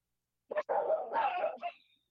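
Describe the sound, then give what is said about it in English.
Dog barking: a short sharp bark, then a longer drawn-out vocal burst and one more brief bark, clear and fairly loud against silence. “And that would be DJ Tanisk, but the dogs have answered for her.”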